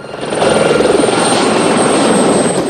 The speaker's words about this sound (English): The helicopter banks left in hot pursuit.